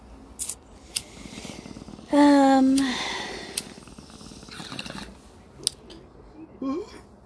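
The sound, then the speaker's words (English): Someone takes a hit from a bong: a few sharp clicks, then one loud gurgling, bubbling burst lasting under a second, followed by fainter scattered clicks and rustles. “And I'm gonna take a bong rip because I did the commercials last time.”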